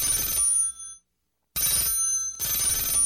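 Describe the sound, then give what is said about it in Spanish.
Telephone bell ringing for an incoming call on a call-in line: bright, tonal ring bursts separated by a short silent gap, the second burst longer with a brief dip, loud and alone with no voices. “Y al parecer, ahora tenemos nuestra cuarta llamada del día.”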